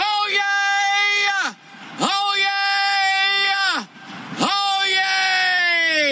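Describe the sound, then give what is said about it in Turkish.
A record-setting human scream measured at 122.4 decibels: three long, very loud, sustained high-pitched yells, each ending in a sharp downward drop in pitch and separated by brief pauses. “Çığlığı tam 122,4 desibele kadar çıkıyor.”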